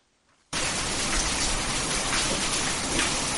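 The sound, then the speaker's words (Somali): Heavy rain falling in the city of Djibouti sets in abruptly after a brief quiet moment, then continues as a loud, steady, dense hiss of drops with no talk. “Roobka ayaa weli ka sii da'aya magaalada Jabuuti iyo degmooyinka kale,”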